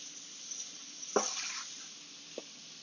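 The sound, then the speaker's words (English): Short ribs sear in a roasting pan with a steady high sizzling hiss, broken by a louder clattering knock about a second in and a brief faint tap later. “Y'all can hear that nice, beautiful sear getting started. I'm going to go ahead and spread these ribs out evenly across the roasting pan.”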